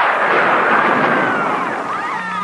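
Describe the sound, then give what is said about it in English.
A lightning bolt attack effect for a fantasy role-playing game: a loud, sustained crackling blast of noise with warbling tones threaded through it, lasting about two and a half seconds with no voices. “Stand and fight or run. Use your lightning bolt.”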